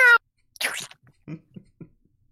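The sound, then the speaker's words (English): A voice imitates a cat's meow with one short, nasal call that rises and falls. A brief sharp vocal note comes before it, and a few faint, low sounds follow. “you're going to walk up to a cat and go, vroom, and the cat's going to go,”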